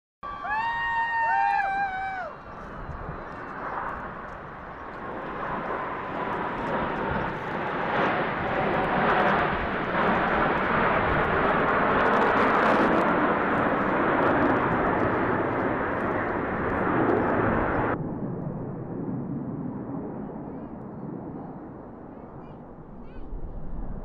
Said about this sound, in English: If you missed it, we have a clip of the Blue Angels flying over Houston.